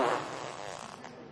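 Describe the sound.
A voice imitates a fart: a single raspy, buzzing blurt of about a second that fades away quietly. It mimics an imam breaking wind during dawn audienceal prayer.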